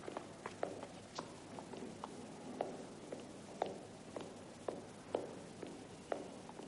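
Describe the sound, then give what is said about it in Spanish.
Footsteps of a person walking along a gallery in a hospital, a faint, steady series of many hard taps at a regular walking pace with no talk. “Camina por la galería.”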